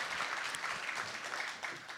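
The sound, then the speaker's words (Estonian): Congregation applause during a church service, a brief, soft and even patter of many hands clapping. “Anname Jeesusele üks vägev aplaus.”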